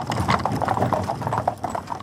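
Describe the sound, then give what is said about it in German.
Horse hooves clip-clop steadily as a horse-drawn carriage rattles over rough ground, a quick uneven rhythm of hollow knocks with a faint background rumble and no talk. “Eine Kutsche rattert über Stock und Stein.”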